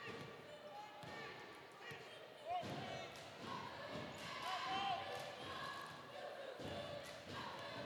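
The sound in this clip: A basketball dribbled slowly on the wing during a high school girls' game, Forest Hills against Piedmont. A few dull thuds sound at an unhurried pace under crowd noise and a commentator's steady talk.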